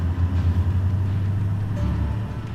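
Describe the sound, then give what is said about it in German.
Car engine shifting between first and second gear, a steady low droning hum that changes tone near the end as the engine note drops. “Ich entscheide zwischen dem ersten und dem zweiten Gang.”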